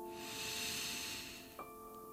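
A slow breath drawn in during guided meditation, a soft, airy hiss lasting about a second and a half over a faint steady musical drone, then easing off.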